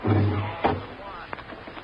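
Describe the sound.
A door closes with a single dull thud, alone and without talk, followed by a quiet stretch.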